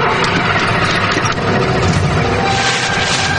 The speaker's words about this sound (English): Kathy keeps trying to start the van.